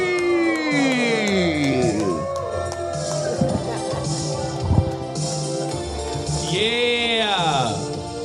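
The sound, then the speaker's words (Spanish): A stand-up open mic audience cheering and whooping as a comedian is introduced, with several shouting voices rising and falling over a background hubbub throughout. “Fuerte aplauso para Bombi.”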